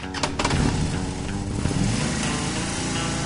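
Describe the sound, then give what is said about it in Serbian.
A car engine starts, with a few sharp bursts at the beginning, then settles into a steady, rough, mid-pitched running rumble that continues to the end. “kad ja upalim motor, formira se zvuk motora”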